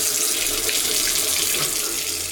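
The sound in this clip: Tap water runs from an open faucet into a sink in a continuous, loud hiss and splash with no pauses and no voices.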